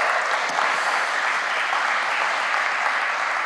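Warm audience applause welcoming a guest to the stage at a church service, a thick, continuous roar of many hands clapping at an even level from start to finish.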